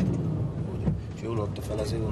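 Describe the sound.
A car engine runs and gains speed during a driving lesson for a trainee truck driver, a low motor drone under people talking.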